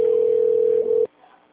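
A telephone line emits a single steady mid-pitched tone for about a second while a call is transferred to an attendant. The tone then cuts off abruptly into near silence.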